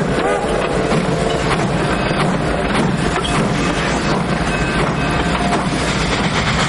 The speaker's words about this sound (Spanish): La locomotora se pone en marcha y comienza a expulsar humo por su chimenea.